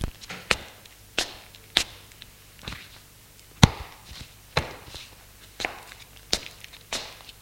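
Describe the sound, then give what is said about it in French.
Barefoot footsteps cross a bedroom floor as clothes are gathered up from the ground: a series of irregular, sharp taps and thuds with quiet gaps between them and one noticeably louder hit midway. “Il marche pieds nus dans la chambre et ramasse ses vêtements qui sont à terre.”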